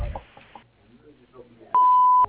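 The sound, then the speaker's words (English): Answering machine beep following a recorded voice greeting at a business line: one clear, steady, high-pitched tone lasting about half a second, alone after the voice ends. “Please leave your message after the beep and we'll get back to you as soon as possible.”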